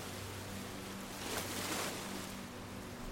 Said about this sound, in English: The light crash as the waves break, and the shush sound as they flow back out.